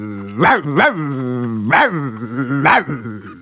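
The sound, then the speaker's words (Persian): A loyal household dog sitting outside a stable barks four times in an uneven rhythm, the barks loud, tonal and fairly low-pitched with harmonic ringing between them. “در همین وقت صدای سگ با وفای خونه که بیرون طویله نشسته بود بلند شد”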